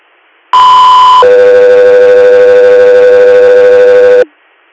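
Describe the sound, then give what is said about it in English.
Radio dispatch alert tones for an emergency medical call: a loud, steady high tone held under a second, then a longer, lower tone sustained for about three seconds before cutting off abruptly. “stand by for tones”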